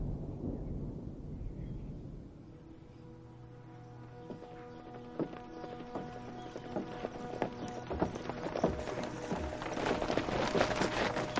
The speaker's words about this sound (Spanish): Danny y Jane cabalgan hacia un pueblo.